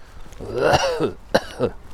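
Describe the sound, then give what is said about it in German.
A person's rough cough mixed with throat clearing during an outdoor walk: a few harsh, gravelly bursts within two seconds. “Ich kann halt nichts für meinen Husten.”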